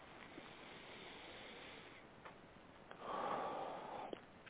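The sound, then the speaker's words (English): A deep breath taken during a guided breathing exercise: a soft, breathy inhalation swelling for about a second, faint and alone over quiet hiss. “And take a deep breath.”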